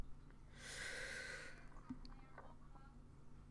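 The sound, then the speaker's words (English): One long, deep breath is drawn in, airy and faint, lasting about a second. Near silence follows, with only faint low background noise. “Let's take a deep breath.”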